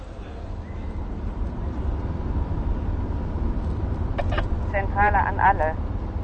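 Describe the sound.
A taxi drives along with a low, steady engine and road rumble filling the whole stretch. A voice cuts in briefly near the end.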